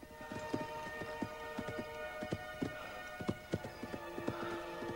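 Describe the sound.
Hooves of a ridden horse clip-clop in a field, with many sharp, uneven strikes in a loping rhythm over a faint, steady background tone.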